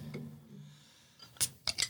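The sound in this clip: A beer bottle is opened with a bottle opener, giving a few sharp metallic clinks near the end after faint, low talk at the start.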